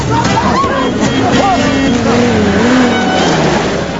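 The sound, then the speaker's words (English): A utility vehicle arriving through jungle, its engine a loud continuous drone with a wavering tone that rises and dips, mixed with other dense noise throughout. “A bearded man arrives in a utility vehicle.”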